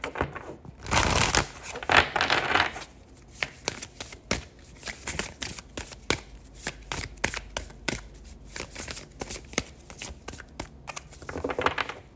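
Cards shuffled and pulled from a deck, with a dense burst of riffling near the start followed by many crisp snaps, taps and slides of varying loudness and a short riffle at the end.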